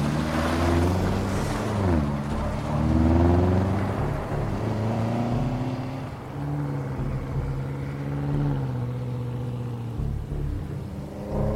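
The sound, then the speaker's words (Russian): A car engine rumbles as the vehicle pulls away, with a low throbbing tone that shifts in pitch as it revs, strongest early on. The engine noise continues steadily and eases slightly in loudness toward the end. “Садится в машину. Машина уезжает.”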